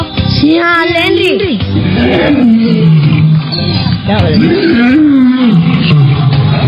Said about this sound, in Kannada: ಓ, ಸಿಂಹನ.